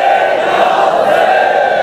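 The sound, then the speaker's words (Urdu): A large crowd chanting "Labbaik Ya Hussain" in unison in response to a religious slogan on the eve of Ashura, a loud, sustained mass of voices with no breaks. “دونوں ہاتھوں کو بلند کر کے پوری آواز کے ساتھ کربلا تک آواز پہنچے اور میرے اس نعرے کا جواب سب مل کے دیں، لبیک یا حسین،”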